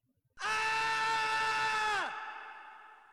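A man's long, strained scream of pain, voiced in a zombie fantasy audio drama; one sustained, loud cry that drops sharply in pitch at the end, followed by a fading echo.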